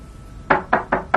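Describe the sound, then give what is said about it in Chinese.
Four firm knocks on a door in an even rhythm, loud and alone after a short quiet stretch. “敲门声响起”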